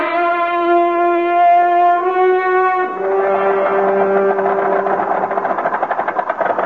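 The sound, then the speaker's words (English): A car engine runs and the car drives off, starting as a steady humming drone and turning rougher and more pulsing partway through, with no talk over it. “Now we better get in the car and move on for safer climbs.”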